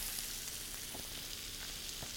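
Food sizzles and spits as it fries in a pan, a soft, steady hiss that stays level throughout, with a few faint taps rising above it.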